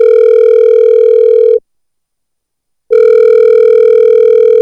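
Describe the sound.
A telephone call tone: a loud, steady electronic tone that sounds, pauses for just over a second, then sounds again, with no talk.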